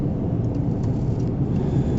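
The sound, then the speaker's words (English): Steady engine and road rumble heard from inside a car stuck in slow traffic, a dense low drone that holds at an even, moderately loud level throughout without distinct events. “I'm stuck in traffic. I tried to get into the right lane and pass everybody. It was not to be.”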